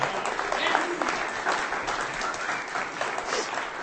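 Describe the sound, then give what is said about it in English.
Audience applause for a performer at a reading, a dense, steady wash of clapping that holds at an even level for about four seconds without breaks. “That was Lizzie, ladies and gentlemen. Give her a hand.”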